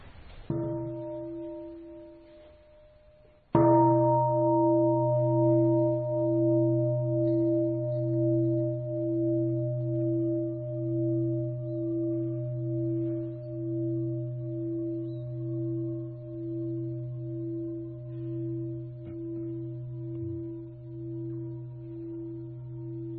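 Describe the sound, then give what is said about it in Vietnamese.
A meditation bell struck during a Buddhist sitting session rings out in deep, sustained tones; after a few seconds it is struck again and left to resonate for about twenty seconds with a slow, pulsing waver. “là tôi thỉnh ba tiếng chuông”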